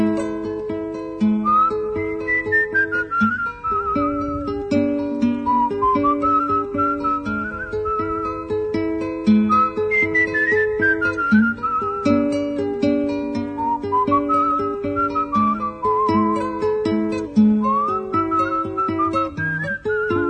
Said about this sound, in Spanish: se fue don Segundo, con su silbido tristón